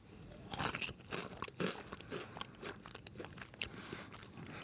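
Thin deep-fried potato strips fresh from the fryer are crunched while tasting: quiet, irregular crisp bites and chewing crackles, a few sharper crunches standing out near the start.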